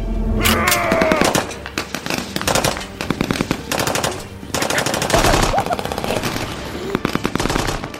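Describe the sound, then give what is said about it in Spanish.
Gunfire from men shooting weapons: loud, rapid bursts of machine-gun-like shots that continue densely and almost without a break through the whole clip. “Desde sus escondites salieron sus hombres, armas en mano, y sin la menor reserva comenzaron a disparar a donde creían que estaba la luz.”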